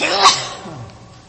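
A single sneeze cuts through, a sharp explosive burst of breath that peaks quickly and then fades into a soft, breathy tail.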